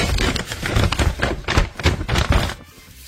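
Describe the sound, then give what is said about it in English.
A paper brochure being unfolded and folded, heard as many quick, crisp rustles and flaps in an uneven rhythm that thin out near the end. “Unfolding and folding a brochure is what it was.”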